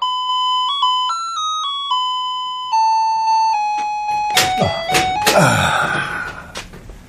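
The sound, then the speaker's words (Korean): An apartment intercom rings with a clear electronic chime, a stepped melody of several steady tones, followed by a stretch of clattering, rustling noise. “지금쯤이라고 생각했을 때 어김없이 인터폰이 울렸다.”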